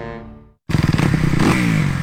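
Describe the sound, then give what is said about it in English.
A motorcycle engine revving: after a short tonal fade and a brief silence, the engine bursts in with a few rapid throttle blips and then holds a loud, rough, revving roar, with no voices. “You know that sound. Every rider knows that sound. Is there a better sound in the world? And it only means one thing. It's time to ride. So rev up and get your ride ready at Sunrise Cycles in Norfolk.”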